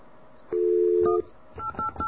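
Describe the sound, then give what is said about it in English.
Telephone keypad DTMF tones as a number is dialed: one long steady beep, then a brief pause and a few short, quick key tones. “Is it 346? 0165. Whoops. I dialed a 2 instead. Hold on, let's try that again.”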